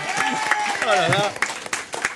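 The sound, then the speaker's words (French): Audience applause at a comedy show, steady dense clapping that runs throughout beneath a voice speaking. “Vous pouvez applaudir et chanter quand même.”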